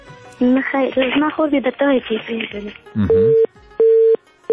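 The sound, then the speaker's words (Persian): Telephone busy tone after a call is cut off, repeated steady beeps on a single pitch that follow a stretch of a voice speaking. “دوی تماس قط شو”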